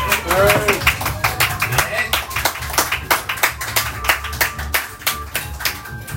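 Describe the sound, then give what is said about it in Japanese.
Audience applause at a lively drinking get-together: many sharp, distinct hand claps in a quick uneven patter, with a voice briefly heard at the start. “あのすいません、弱者の皆様にもう一度大きな拍手を。”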